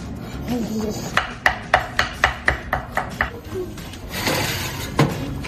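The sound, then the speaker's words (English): A knife slices food into strips on a board, producing a quick run of evenly spaced, crisp cutting knocks. Scattered clattering and movement noise follow. “We're just going to slice these into nice little strips.”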